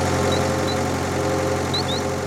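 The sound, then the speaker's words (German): A tractor engine runs as the tractor sets off across a field, a steady, even low drone with a rough mechanical rumble that holds at constant loudness throughout, with no voices. “Am Nachmittag darf Conny mit Annika und Klaus auf dem Traktor mitfahren.”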